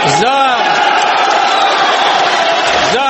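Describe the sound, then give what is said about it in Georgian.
Whistling and applause fill a parliament chamber, a loud, continuous wash of crowd noise with shrill whistles and shouts rising above the clapping. “ამის შესახებ სტუენის და აპლოდისმენტების ფონზე გამოაცხადა პარლამენტის თავმჯდომარე ლიტვინი.”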